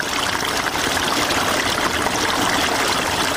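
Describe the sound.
Water flowing steadily while irrigating a pomegranate orchard in the Spitkhar area near Tarinkot: a continuous, even rushing hiss with no pauses or breaks.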